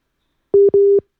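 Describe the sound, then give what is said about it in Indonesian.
A telephone call tone sounds while the line reconnects: two steady mid-pitched beeps, the second slightly longer than the first, alone against silence. “Oh, ini masih menghubungkan ulang ya. Kita coba lagi ya.”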